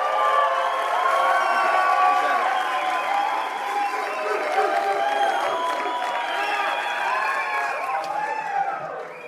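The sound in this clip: An audience applauds and cheers to welcome a speaker, with dense, continuous clapping and whooping, shouting voices mixed through the sustained crowd noise.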